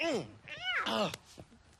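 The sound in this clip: Cat meowing: a few short, moderately loud meows in quick succession, each arching up and back down in pitch, followed by faint scattered noises.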